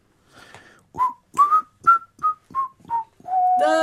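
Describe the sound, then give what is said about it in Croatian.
A worker whistles while working, with boards and a hole in the floor mentioned, in a series of short, separate whistled notes at a similar pitch. It ends in a longer, fuller sustained tone. “Da, zviždanje je dobro. Samo ne tako veselo, nisi valjda sad tako sretan da radiš.”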